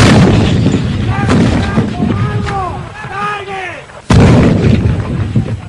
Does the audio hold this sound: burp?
no